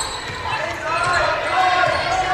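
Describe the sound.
Basketball dribbled during a high school game between the Quakers and West Holmes: dull, rhythmic bounces under a continuous wash of crowd noise and voices.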